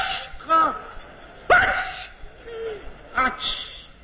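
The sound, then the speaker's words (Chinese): A human voice imitating a sneeze in Beijing style, as if from someone with a cold. A few short, sharp vocal bursts are separated by brief pauses, with some quieter voiced sounds in between. “这两天感冒了，感冒了真难受。我告诉你， 哎、 一会儿一打喷，坏了。”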